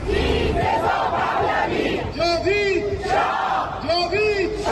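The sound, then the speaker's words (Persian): Iranian diaspora protesters in Italy shout victims' names in unison, loud rhythmic chanted phrases repeating in waves over a constant crowd roar. “ایرانیان مقیم ایتالیا پس از 6 ماه از کشتار 18 و 19 دی همچنان تلاش میکنن با در دست داشتن عکس جاوید نامان و فریاد زدن نامشون به جامعه جهانی یادآوری کنن”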